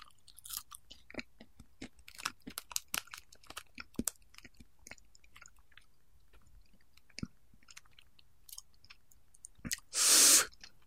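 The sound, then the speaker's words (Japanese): Someone crunches and chews a dried cricket, making many small, sharp, irregular crunches and clicks, faint against quiet, and ending in a louder brief burst of noise. “乾燥したコオロギが。はい。えー、高温多湿を避け常温保存だそうですけども、ちょっと食べてみましょうかね。”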